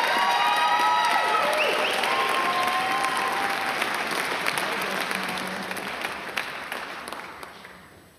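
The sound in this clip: A church audience applauds a preacher welcomed up to preach at a morning service. The clapping is dense and steady, starts loud and slowly fades over several seconds.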